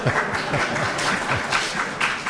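Audience applause: dense, steady clapping from many hands that continues without a break. It is moderately loud and heard without talk.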